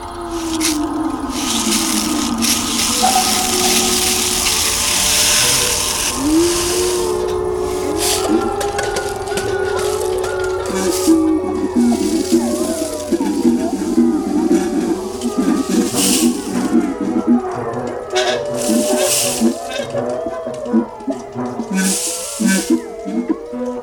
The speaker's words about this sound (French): j'ai mis le nagra en route et puis à un moment un loup a donné le signal et tous les autres loups, ils sont 80 répartis sur 4 hectares de forêt. Euh, la musique est venue.